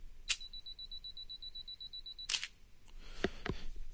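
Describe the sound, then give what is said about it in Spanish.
SLR camera on a tripod using mirror lock-up and self-timer: a sharp click, then a steady high electronic beep lasting about two seconds, then a louder shutter click followed by a few softer mechanical clicks. “vamos a combinar las dos funciones, que es el espejo y la cuenta regresiva. En mi cámara, específicamente, pasa esto.”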